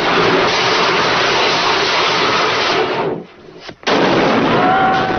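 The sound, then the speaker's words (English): A torpedo explosion strikes a steamer. It is a loud, continuous roaring rumble that drops away briefly near the end, then surges back just as strongly. “Ein Torpedo hat gesessen.”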